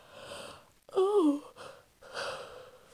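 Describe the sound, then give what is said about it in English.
A yawn from someone tired late at night: a breathy intake, then a loud voiced groan with a wavering, slightly falling pitch, then a longer breathy exhale. “oh, I'm super tired now, so I'm just gonna yawn like 5,000 times”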